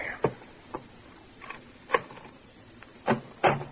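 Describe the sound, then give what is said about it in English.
Persistent pounding on a bedroom door late in the morning: a few dull, fairly faint thumps at irregular intervals, with the last two coming closer together. “Late the next morning, a persistent pounding on the bedroom door awakes you.”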